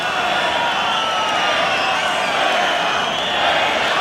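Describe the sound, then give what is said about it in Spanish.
A bullfight crowd protesting angrily makes a steady, loud roar of many voices that holds evenly throughout with no clear breaks. “El público está muy enfadado y protestando las condiciones de la lidia de este toro.”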